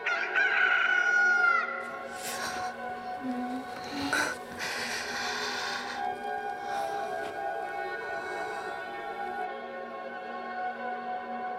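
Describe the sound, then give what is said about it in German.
A rooster crows at dawn with one loud, strained call lasting under two seconds. A few brief rustling bursts follow over a steady low hum. “springt hinauf ein Hahn, er schlägt die Flügel, bläht den Hals und verkündet den Morgen.”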